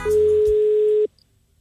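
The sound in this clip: A telephone call rings out as a single long, steady electronic beep lasting about a second. The beep cuts off cleanly into near silence.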